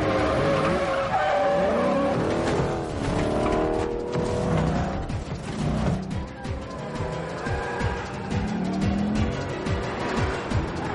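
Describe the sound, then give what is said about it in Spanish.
Tires squeal and an engine roars as a car swerves sharply to dodge other cars after crashing through a fence and racing toward a plane, a continuous loud stretch of skidding and revving. “Derriban la verja y conducen hacia el avión. da un volantazo y esquiva los coches.”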